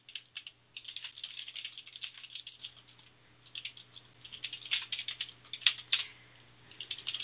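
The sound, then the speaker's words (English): Typing on a computer keyboard: many quick, irregular clicks in bursts and pauses, moderately loud over a faint steady hum, with no talking. “See, now I'm gonna have to type to her.”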